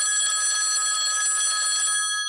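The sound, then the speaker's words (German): A telephone bell ringing with an incoming call: a continuous, bright, high trilling ring that holds at a steady, loud level throughout, alone with no voices. “Da ist auch schon der nächste Anruf.”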